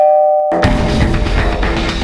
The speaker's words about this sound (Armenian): Դրոյի փողոցի 20 շենքի բնակարաններից մեկի դռան զանգը հնչեց։